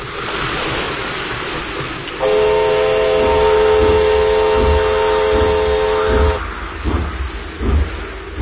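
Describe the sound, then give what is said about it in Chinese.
A train slowly approaching along a flooded track sounds a long, steady, multi-tone horn for about four seconds over a rushing, wave-like rumble. Irregular rumbling and clatter continue after the horn stops. “火车慢慢地驶了过来，驶进了漫着水的路基。”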